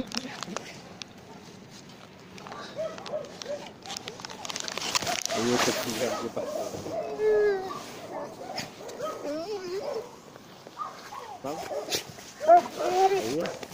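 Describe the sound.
Dogs yipping and whimpering in short, high, chirpy cries, with several rising and falling squeals scattered through the second half, sounding under steady talk and laughter from people nearby.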